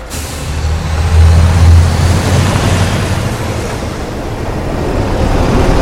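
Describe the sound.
Military vehicles drive along a fence topped with coils of barbed wire, giving a steady, loud, low engine rumble with a broad roar that holds throughout, swelling slightly early on, with no voices.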